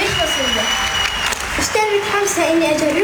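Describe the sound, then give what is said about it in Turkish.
Audience applause welcomes a digital content creator onto the stage at a Red Crescent event: dense, steady clapping fills the whole stretch, with a voice faintly audible over it. “kuvvetli alkışlarımızla sahneye davet ediyoruz”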